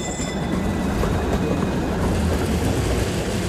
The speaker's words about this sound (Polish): Tramwaj 16.